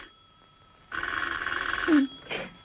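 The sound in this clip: A telephone rings once, a loud buzzing burst lasting about a second that follows a faint steady tone, with a brief vocal sound at its end and shortly after.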